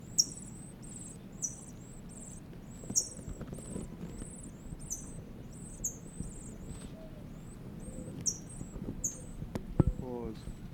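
Bird chicks call from inside a nest in many high, thin peeps repeated rapidly throughout, faint over a low rumbling background.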